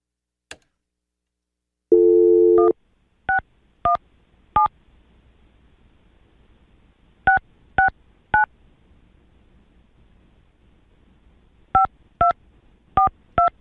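A telephone is dialed: a short low tone, then crisp keypad beeps in three separate bursts of several quick presses each, with pauses between them. The beeps are fairly faint and sound alone, with no voices.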